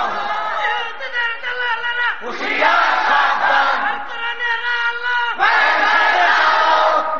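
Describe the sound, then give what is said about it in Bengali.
A large crowd at a Bangladeshi Islamic sermon gathering shouts back in unison to a preacher's question. The loud, sustained massed chant swells with fresh surges of voices about a third and three-quarters of the way through. “ও আমার জাতি চিৎকার মেরে বলো, তারা মুসলমান না কাফের?”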